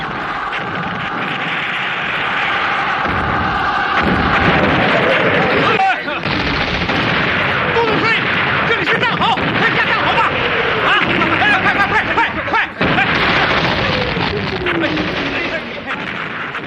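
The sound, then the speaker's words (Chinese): Artillery fire and explosions during a battle at Chenguanzhuang in January 1949 form a continuous, loud barrage of rumbling blasts and crackling gunfire, with descending shell whistles cutting through the din. “陈官庄炮火连天”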